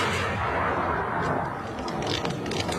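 Battle gunfire sound effect, with dense, continuous rumbling shots and a few sharper cracks standing out toward the end.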